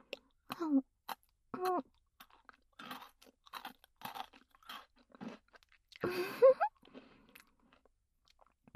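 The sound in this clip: Food being crunched and chewed in several irregular bursts of crisp bites, loud and close, with a few short voiced murmurs in between.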